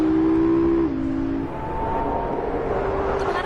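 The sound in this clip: A car being driven fast gives a steady, loud engine drone over continuous road noise; the engine note drops in pitch about one second in, then holds steady.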